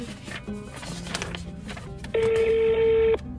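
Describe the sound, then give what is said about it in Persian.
A telephone number is dialed to call an editor: faint clicks and short tones lead into a single long, steady electronic tone that cuts off abruptly near the end. “فقط یه لحظه اجازه بده قبل از این که حرکت کنیم به آقای سردبیر یه زنگ بزنم”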